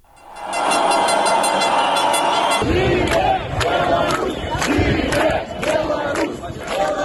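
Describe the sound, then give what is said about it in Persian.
Crowd of protesters at a demonstration in Minsk, Belarus, over presidential election results: a loud, sustained roar of many voices, then rhythmic, repeated bursts of group shouting and noise that continue throughout. “با این توضیح که ابتدای گزارش صدای تظاهرات را می‌شنوید”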